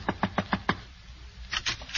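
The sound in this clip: Knocking on a door: five quick, evenly spaced knocks, a short pause, then a few more knocks at a similar pace, fairly crisp and moderately loud.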